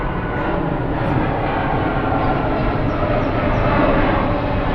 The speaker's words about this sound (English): while we get our plane out of the way.